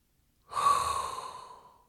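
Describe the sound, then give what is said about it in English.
One long inhaled hot breath, a breathy hiss that starts suddenly, holds, then slowly fades out over about a second and a half. It is heard alone, with no talk. “that is inhale a hot breath”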